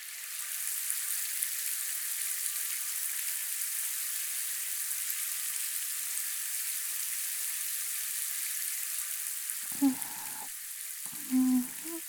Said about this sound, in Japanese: ではこのままあなたの体を流していきます。